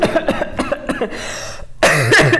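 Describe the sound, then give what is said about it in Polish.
A woman coughs after choking: a quick run of harsh, throaty coughs, then a louder, rougher sputtering burst at the end. “się naprawdę zakrztusiłam”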